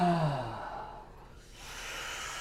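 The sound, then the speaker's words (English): A deep, yawn-like exhale during yoga practice. It starts as a voiced sigh that falls in pitch and trails into a long, airy breath, with no talk. “Are you yawning? No, I'm breathing.”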